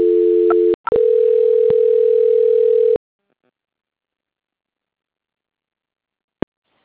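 A steady telephone tone sounds while a call is transferred, broken once by a short gap near the start, then cuts off into silence, with a single sharp click some seconds later.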